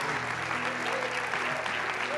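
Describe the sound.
An audience claps and cheers in celebration, with dense, continuous applause and voices mixed into it.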